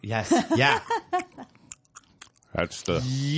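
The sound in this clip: Chewing on a bite of steak at an outdoor Friday night market: soft, crunchy mouth sounds in a short run between stretches of talk.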